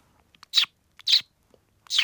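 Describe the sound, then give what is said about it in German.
A woman imitates a budgerigar chirping with her voice, producing three short, bright, high-pitched chirps, evenly spaced, with faint clicks and soft mouth sounds between them and no talk. “bitte zwitschern Sie wie ein Wellensittich”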